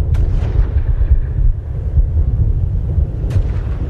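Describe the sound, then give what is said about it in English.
Heavy artillery fires in an intense barrage, producing a loud, continuous low rumble in which deep booms blend into one another, with a few sharper cracks standing out. “Hear how intense it is? Big guns. Big guns right up to the very last second.”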